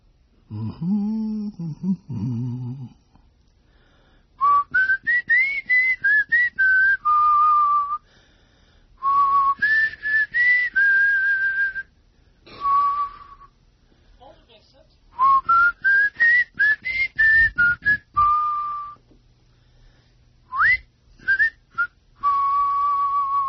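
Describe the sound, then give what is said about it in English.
A person whistles short melodic phrases in several bursts separated by pauses, each phrase climbing and settling on a held note, after a brief low vocal sound at the start. “Now my voice and my whistling,”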